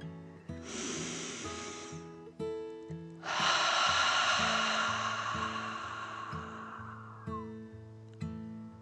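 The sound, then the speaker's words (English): A slow, deep breath: a hissing inhale followed by a longer, softer exhale, taken during a calming bedtime story. Gentle music with repeating notes plays steadily underneath. “Then one more deep breath in and out.”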